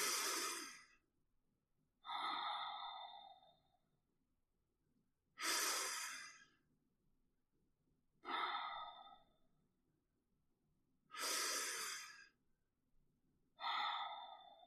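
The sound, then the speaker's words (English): Three very deep breaths, each made of two long airy rushes of air, slow and evenly spaced, with quiet pauses between them and no voices. “When I close my eyes and I take 3 very deep breaths,”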